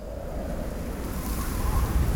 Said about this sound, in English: What's that outside my window? Okay, Jill, get a grip. It's just the wind.